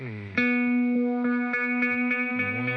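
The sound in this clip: An effects unit produces a loud, sustained, buzzy tone rich in harmonics, pulsing with rapid, evenly spaced echo-like repeats throughout, alone without talk.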